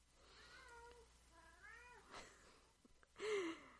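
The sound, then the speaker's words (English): A domestic cat meowing faintly in the background. Three drawn-out meows with a slightly wavering pitch, separated by quiet gaps, the last one noticeably louder than the first two. “And if you hear meowing in the background, that's Baxter, who's decided to just join me now.”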